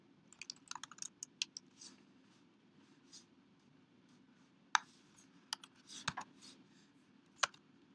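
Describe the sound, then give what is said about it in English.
Code for REST API calls is typed on a computer keyboard as faint, irregular clicking keystrokes, with quick clusters and short pauses over a low, steady hum. “Let me write that code now in the Thing translator.”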